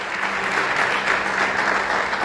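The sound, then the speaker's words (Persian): Congregation applauding during a church sermon: dense, steady clapping from many hands that holds at an even, fairly loud level for the whole stretch, with no voices standing out. “برای خدا دست بزنید”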